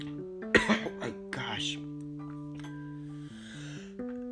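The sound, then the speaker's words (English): Harsh coughing from someone whose water went down the throat too fast, a few sharp bursts close together early on, then quieter over a steady tonal background. “Freaking water going down my throat too fast.”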